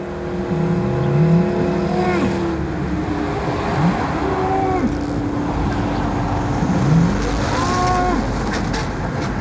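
A Belgian Blue cow mooing by a roadside: a few drawn-out, wavering moos rising and falling in pitch, partly buried under loud, steady motorway traffic noise.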